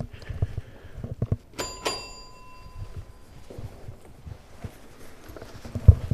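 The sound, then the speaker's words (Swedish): An apartment doorbell in an empty corridor gives two bright, ringing chimes close together, with soft thuds and shuffling around them. “Jag testar det nu med den sista femte lägenheten. Så där, nu har jag ringt på alla fem lägenheter.”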